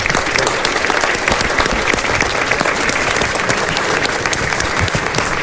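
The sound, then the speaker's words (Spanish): Steady applause from an audience, dense, even clapping that holds at a constant loudness throughout, with no voices rising above it. “Un aplauso”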